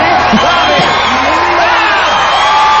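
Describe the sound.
A comedy-show crowd cheers and whoops in a loud, continuous roar, with yells and hollers rising out of the steady wash of voices.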